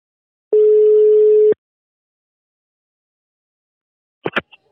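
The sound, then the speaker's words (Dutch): A telephone ringback tone while calling someone: one steady, mid-pitched electronic beep lasting about a second, then silence, then a couple of sharp clicks as the line connects. “Nou, dat kunnen we hem zelf ook even vragen wat hij ervan vond. we gaan hem even bellen.”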